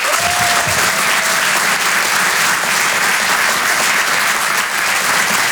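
Loud, sustained audience applause welcoming a comedian onto the stage at a comedy club show at the Apollo Théâtre in Paris, an even wash of clapping for the whole stretch.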